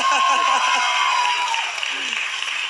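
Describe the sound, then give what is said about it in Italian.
Studio audience applause, a dense, steady wash of clapping that carries through the whole clip and eases slightly toward the end, with a voice briefly audible at the start. “È un altro applauso.”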